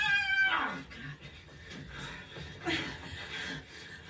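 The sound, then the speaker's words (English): A house cat meows quietly, a short drawn-out call near the start that slides downward, followed by soft scattered sounds. “Don't want to hurt the kitty cat, right? Leave him alone.”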